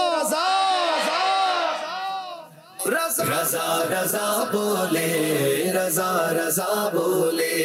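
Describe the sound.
A quiz-show team shouts a slogan together in a loud, sustained chant of rising and falling voices, which breaks off briefly and then surges into a dense, equally loud burst of shouting.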